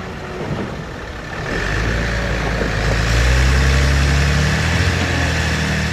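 Bulldozers at a house about to be cleared for a bypass road: heavy engines rumbling low. The idling drone swells in after a moment and then holds loud and steady, with no voices.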